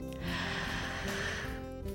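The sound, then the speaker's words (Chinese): A slow deep breath drawn in during abdominal breathing practice, hand resting on the belly; a faint, steady airy inhale lasting about two seconds with no talking. “我现在把我的手放在肚子上面，然后吸气看看。”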